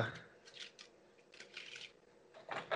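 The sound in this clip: Brand-new deck of playing cards being shuffled: a few quiet bursts of papery riffling and rustling, separated by short pauses.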